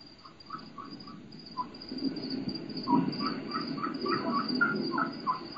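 Bird calling in quick, high-pitched notes, many short chirps following each other at a fast pace. The calls are fairly faint over a low, rumbling background.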